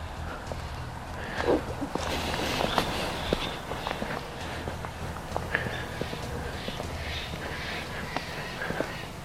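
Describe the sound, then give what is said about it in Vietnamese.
Footsteps of someone walking into Bohemian Grove: many irregular steps, each a short soft tap, over a steady low background noise, with no talk. “Bây giờ mình sẽ bước vào bên trong, chị của mình sẽ giữ xe giùm cho mình. Bước vào bên trong luôn.”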